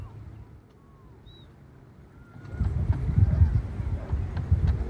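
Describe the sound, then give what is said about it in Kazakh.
A herd of cows approaches in a village. A low, shuffling rumble of many hooves trampling starts faint and grows clearly louder and denser in the second half. “Ар жақтан табын келіп жатыр, сиырлар келіп жатыр ана.”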